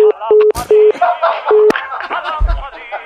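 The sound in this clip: Telephone busy tone after the called party hangs up: a few short, evenly spaced beeps at one steady pitch, with voices talking over and after them.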